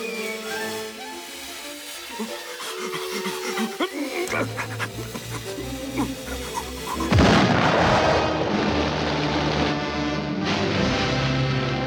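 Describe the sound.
Cartoon barrage of gunfire and cannon shots: busy, layered sounds give way to a sudden loud blast partway through, followed by a sustained, dense rumble of booming shots.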